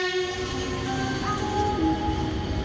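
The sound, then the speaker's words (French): A train at the railway station in Nice on a holiday departure day: continuous broad rumbling with sustained, steady horn-like tones running through it. “Gare de Nice, jour de départ en vacances”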